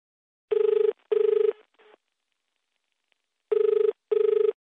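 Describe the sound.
A telephone rings as a radio host places a call: two double rings of a steady, buzzing bell tone, each a quick pair of bursts, separated by a long pause and with no talk over them.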